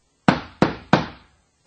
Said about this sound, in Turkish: Derken kapı çalınıyor.